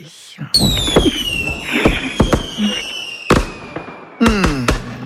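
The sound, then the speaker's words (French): Fireworks exploding in many sharp, loud bangs at an irregular rhythm, with high whistling tones that glide downward between the blasts. “Mais bien sûr, c'est un feu d'artifice, hein.”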